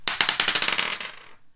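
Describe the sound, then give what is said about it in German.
Quick clattering rattle of a seven-sided die being rolled: a dense burst of hard little clicks and knocks that runs for just over a second, then stops abruptly. “jetzt würfel ich”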